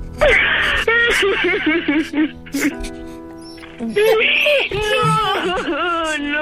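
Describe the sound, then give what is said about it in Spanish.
A person cries and wails in drawn-out, wavering voiced sobs that rise and fall in pitch, breaking off briefly near the middle before the loud wailing resumes. “Pero no llores, hermano”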